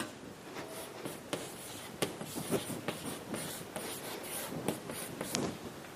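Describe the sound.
Writing with an extremely short piece of chalk on a board: many short scratchy strokes and taps in an irregular rhythm, fairly faint, with no voices.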